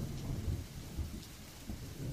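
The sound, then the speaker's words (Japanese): Steady rain falls in a dense, even wash of hiss with a full, low roar beneath it. It stays constant throughout, with no voices. “これだけ雨が降り続くと心地いいとさえ思えてくる。この雨のおかげで獣たちも活発には行動できないでいるのだろう。”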